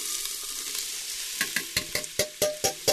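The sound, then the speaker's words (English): Onions frying in a hot pan: a steady, hissing sizzle, then about eight sharp, evenly spaced scraping taps as the onions are stirred over the continuing crackle. “I think this is hot enough for the onions.”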